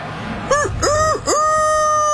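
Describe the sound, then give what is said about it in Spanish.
A rooster crows alone: a few loud, bright rising-and-falling notes, then a long, steady held note that runs to the end. “Como está el gallo hoy”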